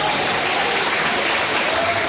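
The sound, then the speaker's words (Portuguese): An audience at a church service claps for the Lord, a loud and continuous mass of clapping with an even level and no breaks. “Quem tá vendo, levanta a mão. Quem tá vendo, bate as palmas pro Senhor.”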